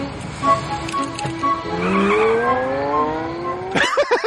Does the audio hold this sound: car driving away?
yes

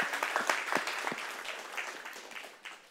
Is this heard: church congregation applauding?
yes

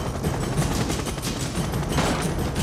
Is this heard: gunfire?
yes

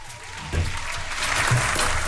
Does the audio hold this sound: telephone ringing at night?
no

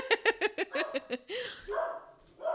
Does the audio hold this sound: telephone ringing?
no

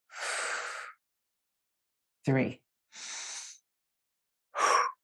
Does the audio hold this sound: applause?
no

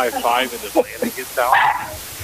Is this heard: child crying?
no

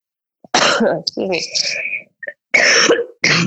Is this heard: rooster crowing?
no

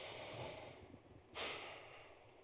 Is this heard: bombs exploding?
no

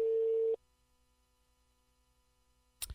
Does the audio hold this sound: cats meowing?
no

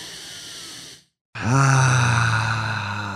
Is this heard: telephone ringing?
no

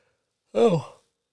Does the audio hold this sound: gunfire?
no

